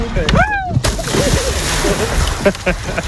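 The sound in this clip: Splashing in Mediterranean sea water gives a steady wash of sloshing and spattering water, with voices talking over it throughout.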